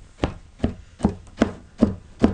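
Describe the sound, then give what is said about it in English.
Big combs stab down on the end of a wool rug during Kyrgyz rug weaving, giving six dull, woody thuds at an even, steady pace with quiet gaps between strikes. “They take these big combs to sort of stab the end of the rug. That's that sound you're hearing right now.”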